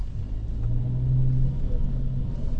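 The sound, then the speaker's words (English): A car driving and accelerating in traffic makes a low, steady engine rumble that swells slightly as the vehicle speeds up. “Now, that was a terrible display of my road rage driving.”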